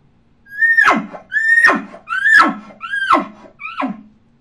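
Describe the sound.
A champion elk caller blows imitation elk grunts through a tube: five calls in a steady rhythm, each a brief high squeal dropping sharply into a low, breathy grunt, the last one shorter and softer.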